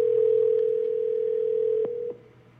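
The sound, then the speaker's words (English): A browser-based calling app dials out with a steady, loud single-pitched tone that holds for about two seconds, with a couple of faint clicks near the end, before cutting off to a low hiss. “So let's go ahead and hit dial. Dialing contact now.”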